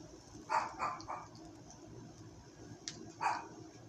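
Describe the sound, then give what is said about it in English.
An excited female dog barks in the background: a quick cluster of a few short, sharp barks, then a pause before one more bark, all fairly faint over a low steady hum. “you might hear my dog in the background barking. She's a little excited”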